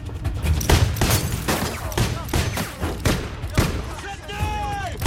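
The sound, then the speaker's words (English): Gunfire rattles out as many sharp, loud shots, fired in quick irregular succession, some clustered close together, with a heavy low thump under each report. “The pimp hears the shots from his office.”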